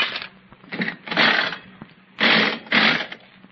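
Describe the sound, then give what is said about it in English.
Coin-operated nickel slot machine being played, heard as several short bursts of mechanical whirring and clattering separated by brief pauses, with the longer bursts near the end. “Oh, I don't think it's possible to win on these slot machines.”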